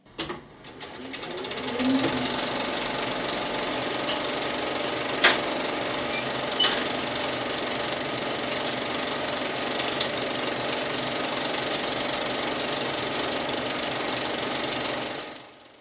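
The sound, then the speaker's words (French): A 35 mm film projector starts a cinema screening. It runs up quickly into a steady mechanical whirr and rattle, with a brief rising whine near the start, and holds constant before cutting off. “Je me contenterai, quant à moi, de vous faire écouter, à titre de comparaison, le démarrage d'une séance en 35 mm, que voici.”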